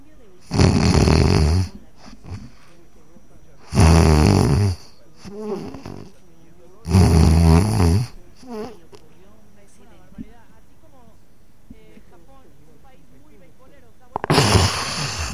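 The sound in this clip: A voice imitates sleep apnea breathing and snoring: four loud, rasping snore bursts, the last after a long near-silent stretch of held breath, with softer breathy sounds between the earlier ones.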